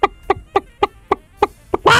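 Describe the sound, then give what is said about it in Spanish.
A person imitating a chicken clucking: seven short, evenly spaced clucks followed by a louder, harsh, drawn-out squawk, with no talk. “si es un hincha de River que manda un cacareo, doble chance.”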